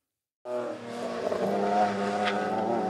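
A race car engine drones on a roughly two-kilometre racetrack near Padborg, Denmark, during a corporate driving event. The harmonic engine roar cuts in abruptly and stays loud and steady to the end.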